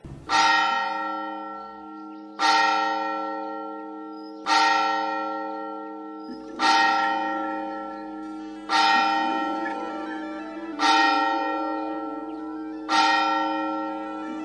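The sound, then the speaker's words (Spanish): A cathedral bell strikes seven times in a slow, even rhythm about two seconds apart. Each deep, ringing stroke blooms and fades into a long, humming resonance before the next. “La guamba da siete campanadas.”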